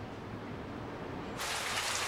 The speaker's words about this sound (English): The rain teems down outside Fatty's security office.